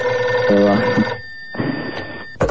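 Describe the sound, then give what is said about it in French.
A telephone rings loudly with a bright, tonal, sustained ring rich in overtones. It breaks off briefly and then rings again in a second burst, cut short at the end. “le téléphone qui sonne”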